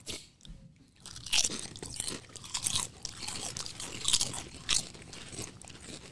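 Crisp crunching of chips being bitten and chewed, a series of many sharp, brittle crunch bursts at an irregular pace, fairly quiet, with no talk over them.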